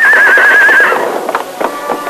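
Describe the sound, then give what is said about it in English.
A horse neighs as it loses its footing on a rocky downhill slope: a loud, wavering whinny lasting nearly a second, then scuffling hoof sounds. “Finally, the horse started downhill. Then, without warning, the animal lost its footing.”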